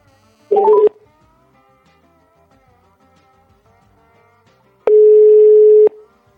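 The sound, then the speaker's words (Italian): Telephone dialing to place a call: a brief cluster of short key beeps stepping up in pitch, then, after a quiet pause, one long steady ringing tone. “io ho pigiato il tastino, chiamo.”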